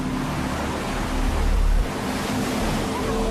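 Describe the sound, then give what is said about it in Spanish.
A large ocean wave, roughly 15 to 20 feet tall, breaks against a constant roar of surf and wind. A deep surge swells briefly near the middle before settling back into steady rumbling wash. “That wave is a good 15, 20 feet tall.”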